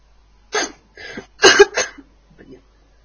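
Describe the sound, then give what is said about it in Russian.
A few short, harsh coughs in a quick irregular run, the middle ones loudest, trailing off into a fainter final cough, with no talk over them. “Каждый раз, когда я кашляю, я делаю вид, я скрываю стеснение.”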